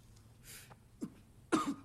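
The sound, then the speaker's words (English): A man coughing on a cigarette: a few faint, rough coughs and throat sounds, the last burst louder and harsher than the others. “Cooper as he coughs on the cigarette”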